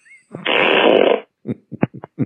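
A comic fart: one long, loud, buzzing blast lasting about a second, then a run of several short sputtering bursts with brief gaps between them.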